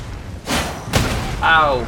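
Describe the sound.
Heavy stomping impacts from a monster's attack in a video game, two loud thuds close together, followed by a short vocal cry.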